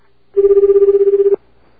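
A telephone rings on an international call to Japan. One electronic ring of about a second sounds as a steady, loud tone with rapid warbling pulses, then cuts off to near silence.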